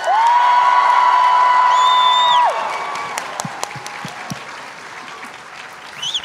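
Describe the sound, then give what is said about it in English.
Audience applause and cheering at an Emerald City Comic Con panel as a voice actor is introduced, with a loud, dense burst of clapping, a sustained high-pitched cheer over the first part, then thinner scattered clapping. “Please give it up for the voice of Prince Zuko, Dante Bosco.”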